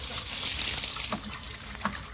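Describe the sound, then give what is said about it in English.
Running water flows while someone washes their hands, a steady hiss of water with a couple of brief, soft splashes. “I'm washing my hands.”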